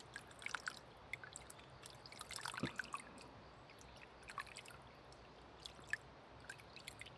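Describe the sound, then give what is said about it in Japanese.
Warm water being poured and rinsed to wash away soap foam: a faint, continuous trickling wash with small scattered drips and splashes, no voices. “泡が残らないように丁寧に流していきます。”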